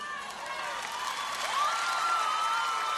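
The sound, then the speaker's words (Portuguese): Audience applause mixed with crowd cheering, a steady wash of clapping that swells slightly toward the end, with voices calling out over it. “E a outra salva de palmas.”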